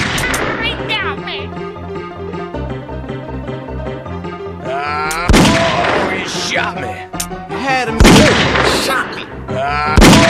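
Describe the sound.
Video game gunfire erupts in a few loud, sharp bursts over a steady musical backing. A voice is also heard.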